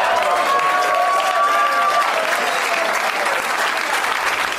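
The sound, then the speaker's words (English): Live audience clapping, a loud, dense and steady burst of applause that keeps the same intensity throughout. “Oh, now you're clapping, assholes?”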